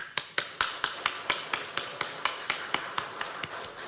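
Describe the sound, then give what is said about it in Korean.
Hand clapping from an audience encouraged to applaud: many sharp, evenly spaced claps in a fast, steady rhythm, heard alone without talk. “여러분 상대방이 자랑할 때 우리 한번 해보죠. 박수 한번 쳐보죠.”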